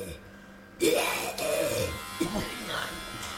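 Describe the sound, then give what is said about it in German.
An electric razor shaves a patient's head, its buzz starting abruptly after a quiet moment and then running steadily, with a voice speaking over it. “Private Barker beginnt damit, dem Patienten den Kopf zu rasieren.”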